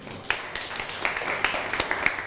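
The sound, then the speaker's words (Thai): Students in a classroom clapping for a classmate, uneven and fairly sparse claps with a few sharper hits standing out over a soft patter, at a moderate level. “ปรบมือให้กับเพื่อน”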